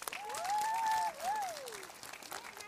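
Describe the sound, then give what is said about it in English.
An audience claps for a young boy called up to the front, a dense, steady patter of many hands that stays loud for about a second before it thins out and fades. “Aiden, come up here, buddy. This is my buddy, Aiden. Give Aiden a big hand.”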